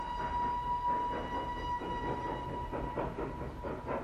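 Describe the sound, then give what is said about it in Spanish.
A train of railway wagons rolls through snowy countryside, giving a steady low rumble with a soft rhythmic clatter of wheels on the rails and a faint sustained high tone above it. “Mientras, el tren de las mujeres avanza por el campo nevado.”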